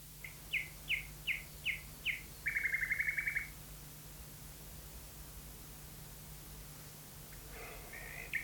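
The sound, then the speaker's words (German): Nightingale song plays from loudspeakers hung in trees and shrubs at night: five clear whistled notes repeat in an even rhythm, then a rapid trill follows. A fainter phrase comes near the end, all over steady hiss and a low hum. “Wenn der süße Schall der Nachtigall auch, genau wie der Gesang der anderen Vögel heute Nachmittag, aus Lautsprechern kommt, die sie in die Bäume und Sträucher gehängt haben.”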